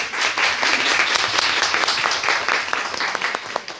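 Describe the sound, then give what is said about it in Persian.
An audience claps in someone's honour with dense, brisk applause that stays strong and then eases slightly toward the end. “نمیخواد یه دستی به افتخاریشون بزنید؟”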